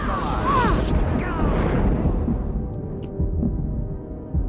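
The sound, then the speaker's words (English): Flamethrower fire in a video game: a loud, continuous roaring whoosh with crackling texture that sweeps on without a break and eases slightly toward the end. “Taking heavy fire! Oh, crap. Run away! Wow, these flamethrowers hurt.”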